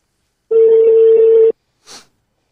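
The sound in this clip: A telephone ringback tone sounds while a call is being placed: one steady, mid-pitched beep lasting about a second, followed by a short, faint click.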